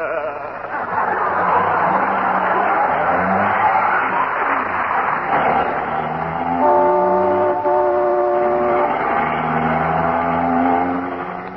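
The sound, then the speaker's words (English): Taxi cab speeding through traffic in a radio-drama sound effect: a continuous loud engine roar, joined later by sustained, honking horn tones. “Isn't he driving awfully fast, dearie? I'll say he is. We just went through a stoplight.”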